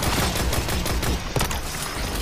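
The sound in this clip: Rapid gunfire from a Destiny 2 Crucible multiplayer match: dense, steady bursts of many quick shots blur into a continuous loud crackle across the whole stretch, without any talk.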